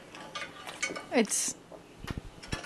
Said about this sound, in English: And somehow it's too wet. And we're using a spoon to get it out.